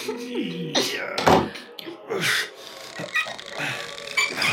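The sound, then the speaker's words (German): A door being closed, with a dull thunk among rubbing, scraping and shuffling sounds, and brief voices heard around it. “Schließ die Tür hier hinter dir!”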